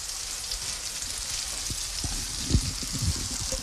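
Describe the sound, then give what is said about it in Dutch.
Warm apples and melted butter poured into an oven dish give a continuous frying-like sizzle and hiss, with soft low bumps and a slightly louder burst partway through. “Dus ik giet nu gewoon alles van die appeltjes met de boter, gesmolten boter. Ik giet die in de ovenschaal.”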